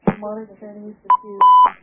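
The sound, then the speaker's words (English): Electronic beeps signal a phone call coming in on a radio call-in show: a short beep, then a longer sustained one. A voice is heard talking just before them. “I think we might have a phone call.”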